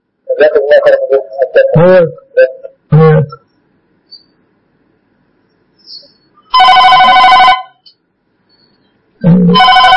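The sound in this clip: An incoming call's telephone ring: one bright, steady electronic ringtone burst of about a second, loud and alone, following talk and coming before more speech.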